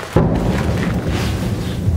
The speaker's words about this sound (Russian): О, Господи, это вот туда. Ё-моё. Это прилеты.